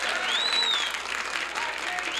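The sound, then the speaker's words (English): Enthusiastic invited audience applauds at a 1966 live jazz recording at Capitol Studios. The dense, steady wash of clapping carries a shrill whistle cutting through early on. “a live recording there from 1966 in front of an over-enthusiastic invited audience at Capitol Studios”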